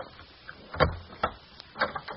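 Door knob being tried and a door opening: a few faint clicks and rattling knocks spaced apart, quiet and alone with no voices.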